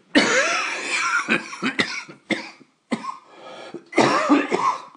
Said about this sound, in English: See, I had developed an instinctive effort to spare you the full sound of my coughing.